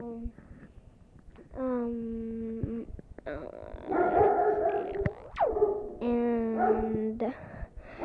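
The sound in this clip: A dog barks at something outside a kitchen window, giving loud drawn-out yelps and whining cries in a few bursts with short gaps between them.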